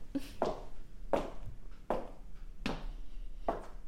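Footsteps go down a narrow staircase as faint, hard taps that land one after another in an uneven steady rhythm, several steps in all with short quiet gaps between them.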